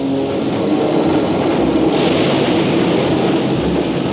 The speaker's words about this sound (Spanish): Baja la escalera de una boca de metro.